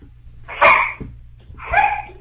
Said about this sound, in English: Here's some dogs back there